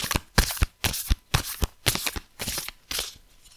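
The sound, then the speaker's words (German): A deck of cards is shuffled by hand, with many crisp, papery riffles and slaps in an irregular rhythm, fairly quiet and without talk. “ich ziehe uns jetzt einfach mal noch eine Karte für den März. Und ich mische jetzt kurz mal. hier so ein bisschen ASMR.”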